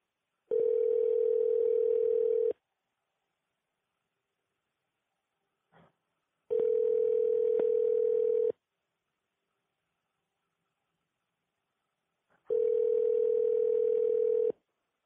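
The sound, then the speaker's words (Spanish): Telephone ringing tone on an outgoing call: three steady, mid-pitched two-second tones separated by long silences, with a faint click before the second and third tone. “Y nada, entonces ahora los dejo con la llamada con mi tía.”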